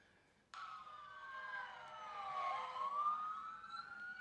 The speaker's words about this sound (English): Siren.